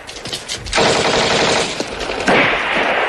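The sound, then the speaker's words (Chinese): Rapid automatic gunfire during a firefight, with a short lead-in and then a dense, loud, continuous burst of shots that keeps going to the end with no voices. “开枪！开枪！ 快开枪！”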